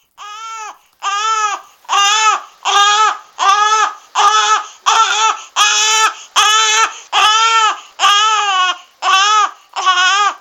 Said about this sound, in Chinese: 突然间听见一阵阵嘅 B B 仔喊声啊